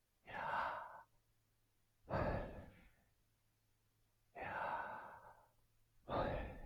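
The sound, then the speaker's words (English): Slow breathing in and out, with four long, airy, breathy rushes of air separated by short quiet pauses, each swelling and fading smoothly, heard alone without talk. “it is the sound of inhalation and exhalation. So if you say it, you know, we'll do it over the speaker here.”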